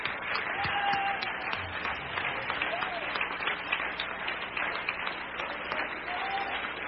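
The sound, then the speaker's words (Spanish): An audience applauds at a Spanish-language church service, a sustained, fairly loud patter of many hands over several seconds, with faint voices and a few cheers mixed underneath. “Dale un aplauso a la gloria del Señor.”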